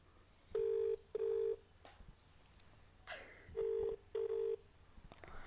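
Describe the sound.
A telephone on speakerphone ringing out after a number is dialed: two pairs of steady, mid-pitched double-ring tones separated by a pause, over faint background rustling.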